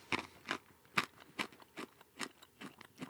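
Faint crunching of a salty, hard Ugandan snack being chewed: many sharp, brittle crunches in an uneven rhythm, alone with no talk.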